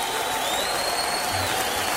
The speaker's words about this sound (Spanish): Dale fuerte el aplauso a Jesús.